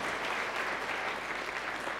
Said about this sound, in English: All right, let's give them a round of applause.